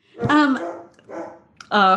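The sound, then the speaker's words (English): A little dog barks in the background: three short, high yelping barks with gaps between them. “I love it when dogs show up on the podcast. I don't know if our listeners can hear that there's a little dog in the background.”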